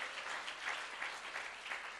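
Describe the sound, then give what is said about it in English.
A church audience clapping in worship, with many hands beating together in a steady, quick rhythmic pulse that stays even and moderately loud throughout. “Clap your hands to the Lord. Let's just worship him.”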